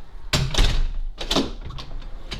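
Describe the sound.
A door being shut gives a few sharp knocks and thuds over a low, steady rumble.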